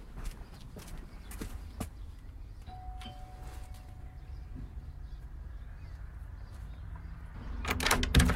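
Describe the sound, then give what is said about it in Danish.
Footsteps walking up to a small red-brick house, then a faint, brief doorbell tone against a quiet background, followed by louder knocking or clatter at the end. “Det er et lille rødstenshus. Jeg går hen og ringer på.”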